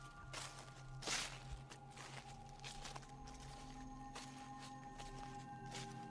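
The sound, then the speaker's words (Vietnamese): Faint, shuffling footsteps in a garden at night: a few soft, irregular scuffs over a low steady hum. “nhưng hễ cứ đặt chân xuống là tiếng bước chân lẹt xẹt lại vang lên.”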